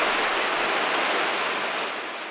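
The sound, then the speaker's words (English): Hail pelting a studio building downtown during a sudden storm, a dense, continuous hissing roar of countless tiny impacts that fades slightly near the end. “This is the sound of hail as it hits the Black Hills Studio building in downtown Rapid City.”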